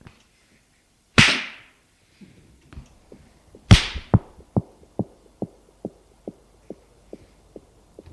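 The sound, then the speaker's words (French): A pistol is fired at the temple: a sharp, loud crack, then a second crack, followed by a steady run of many soft, low heartbeat-like thumps. “Il lui met l'arme sur la tempe et tire.”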